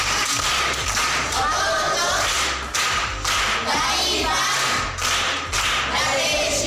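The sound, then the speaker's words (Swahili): Group clapping for an aunt at a primary school gathering. Many sharp, loud claps run in a fast, steady patter, broken by a couple of brief dips. “Makofi kwa shangazi.”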